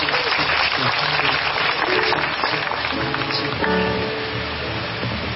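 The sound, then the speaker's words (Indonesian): Dense, sustained audience applause at a birthday celebration gathering with poetry readings, a steady wash of clapping that fills the whole clip with little change in loudness. “Tepuk tangan untuk Gusmus.”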